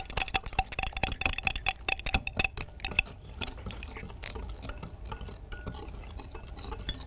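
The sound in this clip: Stirring a viscous cosmetic mixture containing polyquaternium-7 until smooth: many rapid metallic clinks of a utensil against a container, easing into softer, steadier scraping.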